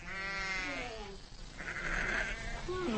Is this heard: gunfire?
no